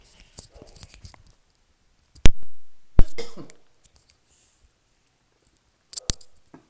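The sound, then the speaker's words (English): Coughing and throat clearing from a person with something stuck in the throat: two loud, harsh bursts close together, the second longer and raspier, with a few soft clicks before and a couple of brief quiet sounds near the end. “Pardon me. I have something stuck in my throat.”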